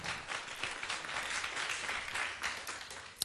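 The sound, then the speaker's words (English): Audience applause at a stage event as a musician is welcomed to the stage: a steady, dense wash of many hands clapping that holds evenly throughout without pause, fairly soft overall, with one sharper clap near the end. “給他掌聲”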